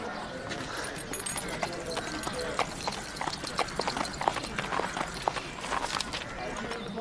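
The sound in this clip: An unshod pony's hooves clip-clop at a walk, making many light, sharp strikes in a steady uneven rhythm, at a moderate level.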